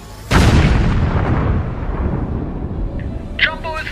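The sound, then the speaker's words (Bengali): A huge explosion as a torpedo strikes a diesel-laden tanker in a wartime Mediterranean sea battle: a sudden loud boom bursts out, then a long, heavy rumbling roar slowly dies away. “কান ফাটানো একটা বিস্ফোরণে কেঁপে উঠল উভয় পক্ষের সৈনিকেরা।”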